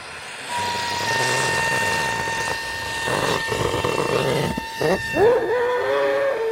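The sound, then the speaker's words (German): Helium rushes from a gas cylinder into a weather balloon as it fills, a steady loud hiss with thin whistling tones running through it and some wavering tones toward the end. “Ein Wetterballon wird mit Helium aus einer Gasflasche gefüllt. Er wächst und wächst, bis er nach gut 1,5 Minuten einen Durchmesser von etwa 1 Meter erreicht.”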